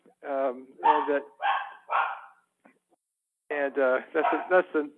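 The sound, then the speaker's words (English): A dog barks excitedly. Two quick runs of high, yelping barks are separated by a short pause. “to let you know, my wife is coming home. The dog goes crazy.”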